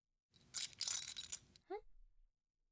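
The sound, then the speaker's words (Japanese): Metallic jingling of house keys being handed over, a dense cluster of bright clinks and rustles lasting about a second, followed by a short voiced sound. “これは、家の鍵？”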